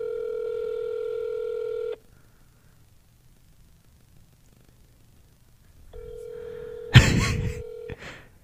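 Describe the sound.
Telephone sounds on an outgoing prank call: a steady electronic line tone, then a silent gap, then the tone returns and is cut by a harsh, noisy burst before fading out.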